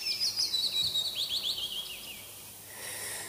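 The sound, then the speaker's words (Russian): Warbler singing in a forest: a quick run of many high, thin chirps and twitters in the first half, then fading. Afterwards only a soft, steady hiss of woodland ambience remains. “это что за птичка? Пеночка, может быть, не знаю.”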